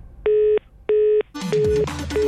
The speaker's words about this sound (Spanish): ¡Y colgó el teléfono!